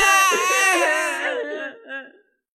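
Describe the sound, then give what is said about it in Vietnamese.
Loud wailing from young children crying atop a fortress wall, a high, wavering sob that holds for about two seconds before breaking off into a short final whimper. “Trên tường thành đế quan, một đám trẻ nhỏ khóc rống lên.”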